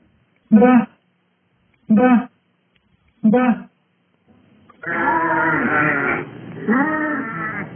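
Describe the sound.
Sheep bleat as their shepherd calls them in at sunset: three short separate bleats with pauses between them, then a longer stretch of overlapping, wavering bleats from several animals.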